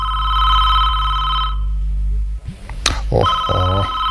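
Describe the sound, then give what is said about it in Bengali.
An electronic telephone rings at a reception desk, a bright, steady warbling tone that stops briefly and then rings again. “দাদা আমার phone receive করো।”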